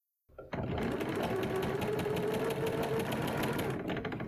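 A sewing machine stitches a seam on a blazer collar band, running in one steady, continuous burst for about four seconds with no talk.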